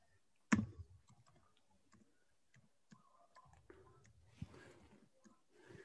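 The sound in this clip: Keyboard typing: soft, irregular clicks spread across the stretch, with one sharper, louder click near the start and faint background noise in between.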